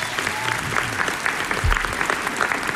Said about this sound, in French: Avec nous aujourd'hui, Shani Di Luca, pianiste que je vous demande d'acclamer. Bravo!